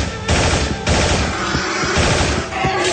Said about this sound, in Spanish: Juan saca su ametralladora y dispara contra todo lo que se mueve amenazante